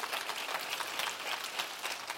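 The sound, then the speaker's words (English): Congregation clapping in praise during a church service, a faint, rhythmic run of many claps at a steady beat without pause. “Somebody give God a hand clap of praise.”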